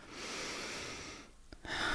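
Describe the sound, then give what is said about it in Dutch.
Slow, deep breathing in and out: a long, soft rush of air, a short pause, then another breath beginning. “Adem lekker diep in en uit.”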